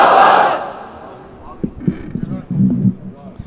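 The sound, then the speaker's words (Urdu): A crowd at a religious gathering shouts a slogan in unison to welcome a speaker. The loud, massed roar opens the moment and quickly dies away, leaving a single voice speaking. “میں درخواست کروں گا کہ آپ حضرات اپنے بھرپور نعروں کے ساتھ نعرہ تکبیر، تاج و تخت ختم نبوت، جناب قبلہ قاضی صاحب.”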